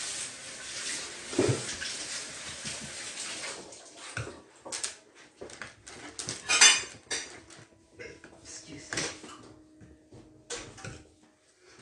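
A spoon scrapes and knocks around a pot while stirring dense, fruit-laden black cake batter. It is a continuous run of irregular scrapes and clanks with a few louder clatters, and no voices.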